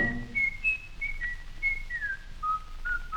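A person whistles a tune alone, holding clear, fairly high notes that glide between pitches with a gentle downward drift, soft and steady.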